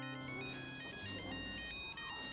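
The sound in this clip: A telephone ringtone plays as a steady electronic melody of bright, sustained tones over lower hum, continuing loudly through the whole clip without a break.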